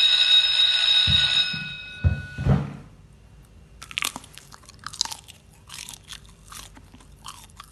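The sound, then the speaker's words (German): Chewing mushy food: soft, irregular wet mouth sounds and faint bites that continue at low volume, after a bright ringing chime at the start that is broken by a few thumps. “Weißt du, und ihr erzählt, dass ich komisch kaue? Lecker! Das ist ein bisschen matschig.”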